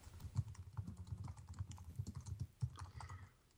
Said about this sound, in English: Sorry, I'm just writing down some quotes so I don't forget them.